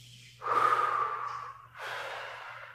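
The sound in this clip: Two breaths blown out during a guided breathing exercise, each a soft, airy rushing exhale. The first is longer and stronger, the second slightly quieter, over a faint, steady low hum.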